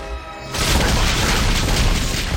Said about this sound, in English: Oh, they fired the catapult at the trolls without aiming it at the trolls.